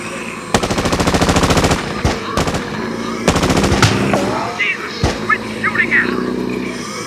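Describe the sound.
Automatic gunfire from a turret gun mounted on a van: a long rapid burst of sharp shots, then a few separate bangs and another shorter burst, loud over a low rumble with voices talking.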